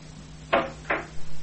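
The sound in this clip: A few dull knocks at a door. Two firm thuds come close together, then softer knocks follow over a faint low hum.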